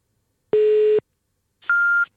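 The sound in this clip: Two steady electronic beeps from an old-fashioned telephone line during a call: a lower, buzzy tone held about half a second, a short pause, then a higher, thinner tone of similar length, both fairly loud and clean.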